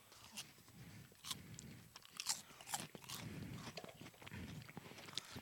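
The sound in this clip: Faint, irregular crunching and chewing of Smartfood Krispy Kreme original glazed donut flavored popcorn, with many small bites and crisp snaps following one another.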